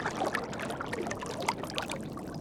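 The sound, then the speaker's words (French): An oar lightly skims the water as a boat is rowed, giving soft, continuous splashing and trickling with a few slightly sharper drips, all fairly quiet. “qui ne fait qu'effleurer sa rame sur l'eau, et Clovis épuisé.”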